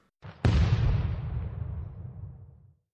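A robot's self-destruct explosion: a short burst, then a loud booming blast whose deep rumble slowly fades over about two seconds.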